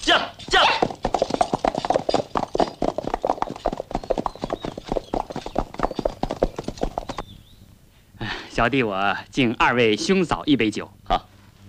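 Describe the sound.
Horses gallop along a back-mountain path behind the bandits' Evil Tiger Village in a Chinese drama scene, hooves clip-clopping in fast, even beats for several seconds. Voices speak over the later hoofbeats.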